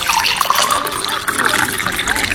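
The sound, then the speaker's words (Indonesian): Water poured into a glass for someone about to take medicine: a steady, bright trickle and splash that runs through the whole moment, with a faint voice underneath. “Kakak, minta tolong ambilin air ya, adik mau minum obat. Gitu dong, tunggu sebentar.”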